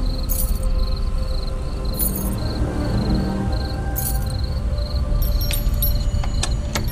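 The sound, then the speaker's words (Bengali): Bunch of keys jangling as each key is tried in a door lock: bright metallic clinks come in short bursts, then a denser, busier run of jingling toward the end over a steady background hiss. “Pocket থেকে চাবির গোছা বের করে সব কটা চাবি মিলিয়ে দেখল।”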